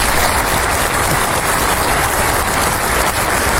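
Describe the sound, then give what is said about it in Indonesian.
An audience applauds at a kindergarten children's performance event, with dense, steady clapping that continues without a break. “Iya, tepuk tangannya.”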